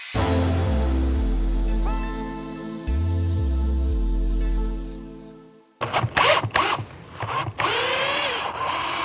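A power drill drives screws to fix a tarpaulin onto a wooden roof frame that has no tiles. Two long motor whines shift pitch in steps, then give way to irregular clattering and rustling.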